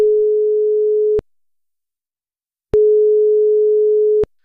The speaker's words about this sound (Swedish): Vi ska ta och slå ett nummer.